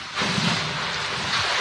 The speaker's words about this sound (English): That's the sound of a gorilla spinning in circles.